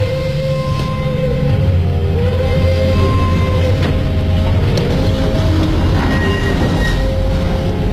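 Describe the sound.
Deportation train bound for a concentration camp pulling away: a loud, steady, continuous low rumble with faint high-pitched wheel squeals and tonal whines running throughout, no voices.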